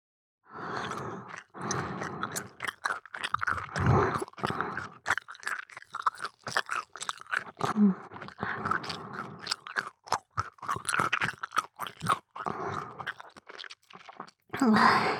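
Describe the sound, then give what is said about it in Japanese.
Gum is chewed close to the ear: many wet, crunchy chews and smacks in an uneven rhythm, with short pauses between bursts and no talk. “咀嚼する音、好き？好きなんだ。なら、耳元で噛んであげる。”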